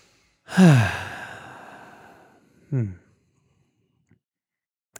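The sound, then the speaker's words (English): Two deep breaths are taken during a guided relaxation exercise. A long, loud exhaling sigh with a voiced start fades gradually, then a second, much shorter breath follows. A couple of faint clicks come after. “So maybe some deep breaths. Deep breaths.”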